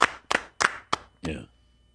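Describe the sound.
A few sparse, sharp hand claps from a lone person in place of a round of applause for a guest, each a crisp smack followed by a short pause, trailing off quickly.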